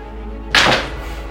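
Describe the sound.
Dice rolled for damage in a tabletop role-playing game, heard as one short clattering thunk with a brief rattle that fades within a fraction of a second over a low steady hum.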